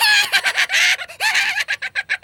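An angry hen at a cat flap clucks in a rapid, loud string of harsh squawks. Longer scolding calls come first, then quicker staccato clucks toward the end.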